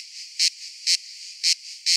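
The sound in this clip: Cicadas screaming in a steady, high-pitched insect drone, with four louder buzzing pulses rising out of the continuous whine at a fairly even pace.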